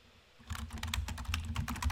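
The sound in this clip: Typing on a computer keyboard while a search query is entered: many quick, light keystroke clicks in an uneven rhythm that start after a short quiet moment and run to the end.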